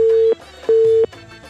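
Telephone busy tone after a dropped call: two steady, low buzzing tones of equal length, separated by a short pause.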